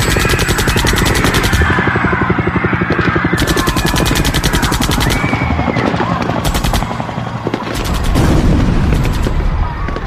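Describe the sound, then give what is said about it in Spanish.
Gunfire from police firing on Indigenous protesters blocking a highway near Bagua Grande, Peru: loud, dense rapid bursts like automatic weapons, with sharp cracks and booms running without pause and growing heavier toward the end. “cientos de efectivos de la policía llegan a donde los indígenas están reunidos y empiezan a disparar”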